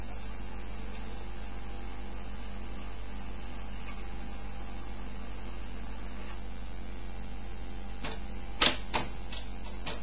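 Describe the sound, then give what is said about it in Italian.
A tape recorder jamming, with the tape not winding forward or back: a steady low hum, then a few sharp mechanical clicks close together near the end. “Niente, non porta neanche avanti né indietro. Praticamente il nastro si inceppa.”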